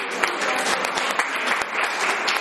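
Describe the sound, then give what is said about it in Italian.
An audience applauds at a book presentation, a steady burst of many hands clapping that continues evenly throughout. “Un applauso a Salvatore.”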